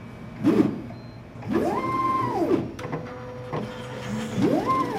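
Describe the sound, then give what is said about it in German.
A white laboratory pipetting robot with two long gripper arms whirs through a few electric motor movements, each rising and falling in pitch as its arms travel, separated by brief mechanical clicks over a low running hum. “Leonie Kauling steht vor einer weißen Maschine mit zwei langen Greifarmen. Über ein Display gibt sie letzte Anweisungen. Dann schaut sie auf und erklärt. Das ist jetzt unser Pipettierroboter,”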